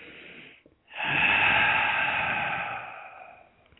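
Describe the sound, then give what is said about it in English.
A deep breath: a short breath sound, a brief pause, then a long, loud, breathy rush of air lasting about two and a half seconds that fades at the end, with no talking. “All right, take a deep breath.”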